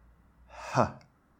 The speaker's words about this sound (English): H sound also falls into this category of fricatives. And what I want you to remember from this one and what I want you to take away from this one is you just have to sort of breathe out.